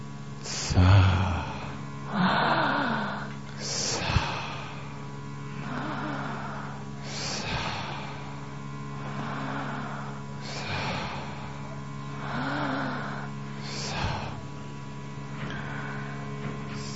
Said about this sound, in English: Continue while you breathe in and out.